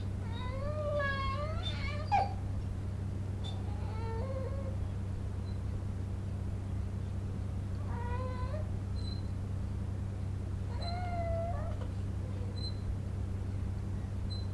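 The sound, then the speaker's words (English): A hungry baby girl cries in short, wavering wails, several bursts separated by pauses, faint over a steady low hum. “We're now going to let you hear your beautiful granddaughter cry. Doesn't she sound pitiful? She's hungry.”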